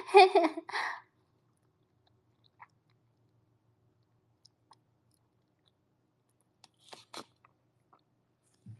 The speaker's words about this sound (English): The noodles are cold now, but you know what? I kind of like them cold rather than hot.